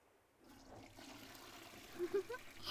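A toilet flushing into the bowl: a quiet, steady rush of water swells in after half a second and holds, with a few brief gurgling blips near the end.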